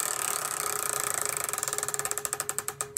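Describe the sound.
A spun game wheel ratchets, its clicks racing at first and then slowing steadily, each tick growing more separate and distinct as the wheel winds down.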